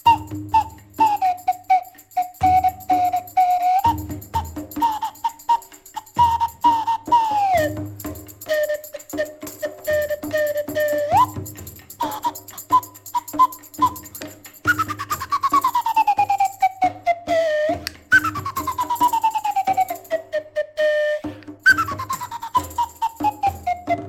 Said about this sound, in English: Yes, slide the whistle